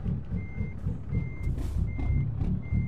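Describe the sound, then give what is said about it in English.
A truck's reversing alarm sounds as the vehicle jackknifes to back out of a small gas station: four high, steady beeps in an even rhythm over a continuous low engine rumble. “We're full-blown jackknifing, but I think it's really the only way to get out of this mom-and-pop gas station here.”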